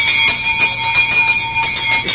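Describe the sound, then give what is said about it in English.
An alarm gong fitted to an anti-theft bag rings loudly and continuously. Rapid metallic strikes blend into a bright, sustained clang with no voices. “if you are beaten on the head and the bag is snatched off you and you don't notice, this alarm gong will sound.”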